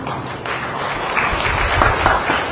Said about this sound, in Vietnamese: Vỗ tay là được hay không?